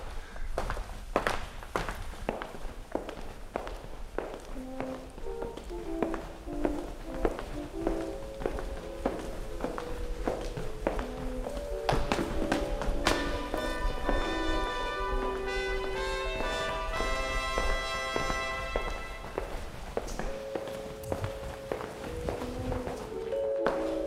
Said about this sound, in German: Und wenn wir jetzt laufen, dann laufen wir wirklich echt, ohne dass wir auf der Stelle gehen,